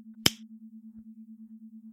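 A single crisp finger snap rings out near the start, sharp and bright, then leaves only a low, steady hum pulsing softly in the background.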